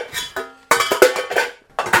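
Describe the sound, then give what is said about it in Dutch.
Potatoes tumble into a cooking pan with clattering knocks and rattles, arriving in a few short bursts separated by brief pauses. “Even kijken, de aardappels gaan in deze pan.”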